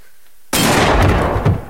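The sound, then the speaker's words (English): A handgun fires in a single sudden, loud blast that bursts out of silence and hangs as a harsh, broad roar for over a second before cutting off. “He points his gun at Dave.”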